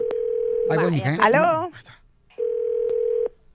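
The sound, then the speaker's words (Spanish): A telephone line sounds a steady, flat ringback tone in two separate bursts while a call is placed. A voice speaks briefly between the bursts. “oh, está marcando, ¿eh? Vamos a marcarle a dos tías que no se hablan chamacos.”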